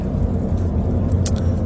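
A car being driven on the road gives a steady, low rumbling drone of engine and tyre noise that runs without a break for the whole moment, with no voices heard.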